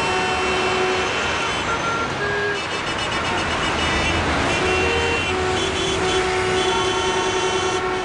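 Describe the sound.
City street traffic in Toledo during August: a steady, dense rumble of engines and tires runs throughout, with sustained tonal notes like horns or beeps held and overlapping at times.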